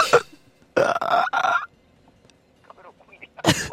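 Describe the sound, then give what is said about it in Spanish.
Turkey gobbling: rapid, rattling bursts, with a cluster of three close together early on and one more a couple of seconds later, loud over a quiet background with faint sounds between. “El pavo. El pavo.”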